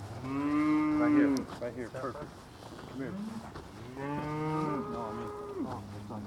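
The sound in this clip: Cattle mooing, a small group of heifers and steers, with two long, drawn-out lowing calls separated by several shorter grunting moos, moderately loud and unaccompanied by talk.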